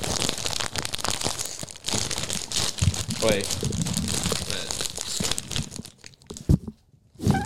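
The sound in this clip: A bag of hot chips crinkles and tears right up against the microphone in loud, continuous rustling and crunching while people talk over it, then thins out near the end.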